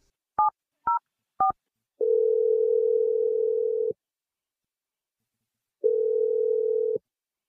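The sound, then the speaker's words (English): Telephone dialing: three short, evenly spaced keypad beeps, then two long, steady ringback tones separated by a silent pause. No voices are heard. “Dialing your number right now.”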